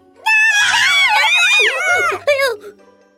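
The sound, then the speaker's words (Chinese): Gulliver, a man, cries out in surprise with a loud, drawn-out 'ah' that wavers up and down in pitch, then breaks off into a shorter second burst. “格列佛非常吃惊，大叫了一声：“啊！””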